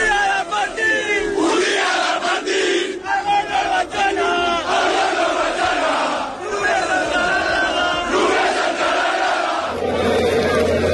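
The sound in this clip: Barcelona football fans celebrate a league title at night, a dense crowd chanting and cheering loudly and without pause, with voices rising and falling in waves throughout.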